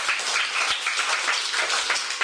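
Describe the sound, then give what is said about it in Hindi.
Audience applause, a dense even patter of many hands clapping that holds steady for the whole moment with no voices over it. “ताली बजा प्यार के लिए।”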